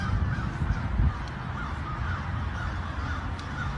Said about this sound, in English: this is within 10 miles of East Palestine, and I think all of the crows are coming here. They're just everywhere